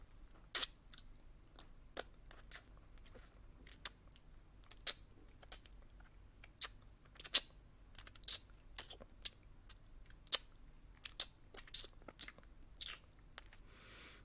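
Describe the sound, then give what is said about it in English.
Eating treats with the mouth alone, no hands: many faint, sharp crunching and biting clicks at irregular intervals over a low, steady background hush. “tasty treats right in front of me, but I'm not gonna use my hands. Just my warm tongue and my wet mouth.”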